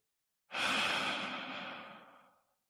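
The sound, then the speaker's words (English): A deep breath drawn in and let out, slow and calm, heard as one long airy rush of breath that holds steady, then gradually fades away to silence. “Take a deep breath in and let it out.”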